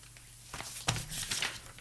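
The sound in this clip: Paper being handled: a few crinkling, rustling bursts of sheets moving, with one sharper rustle near the middle, over a quiet background.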